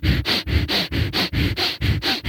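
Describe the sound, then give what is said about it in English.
Rapid breathing in and out through the nose, with quick alternating inhalations and exhalations forming a fast, even rhythm of many sharp, airy sniffing bursts, heard alone. “he breathes quick inhalations and quick exhalations in groups of 3 sets of 10. So it might sound like this.”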